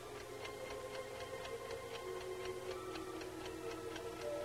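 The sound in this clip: An alarm clock sitting on a stove ticks in a steady, even rhythm of many quiet, crisp ticks over faint background noise.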